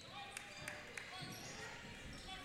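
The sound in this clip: A basketball dribbled during a high school boys' game between Flint International and Imlay City: sharp, hollow bounces in a quick, even rhythm, heard under a voice talking and crowd murmur.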